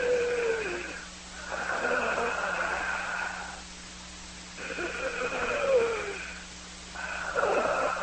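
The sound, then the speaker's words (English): A voice imitates heavy, labored breathing: a few drawn-out, rasping, wheezy breaths, each lasting one to two seconds, separated by short pauses, over a steady low hum. “I just heard somebody breathing heavily and hard, like labored breathing in my ear. I said, like this?”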